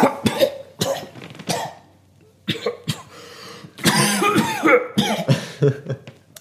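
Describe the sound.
Coughing after inhaling lint from a sock: a few sharp separate coughs, a short pause, then a denser, harsher run of coughs and throat-clearing bursts to the end.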